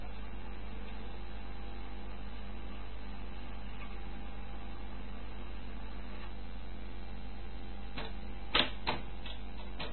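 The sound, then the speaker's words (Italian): A tape player jams on its cassette. A steady low mechanical hum runs throughout, then a few sharp, loud clicks of the mechanism bunch together near the end. “Niente, non porta neanche avanti né indietro. Praticamente il nastro si inceppa.”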